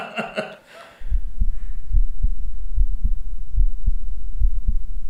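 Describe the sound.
Heartbeat heard through a cardiologist's stethoscope: low, muffled thumping beats repeat in an even, steady rhythm for several seconds, each pulse soft and deep.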